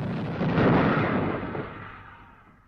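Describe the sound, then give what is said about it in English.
Heavy gunfire from the warship Amethyst as shelling dies down: a loud, rumbling blast swells quickly, then slowly decays into a fading roar. “The Amethyst lets off a few more shots as the shelling appears to subside.”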